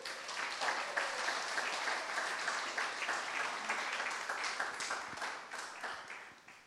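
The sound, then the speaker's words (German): Audience applause for a pastor: dense, steady clapping from a crowd that holds at an even level for about six seconds, then tapers off at the end. “Applaus für den Pastor Vitaly Kelder.”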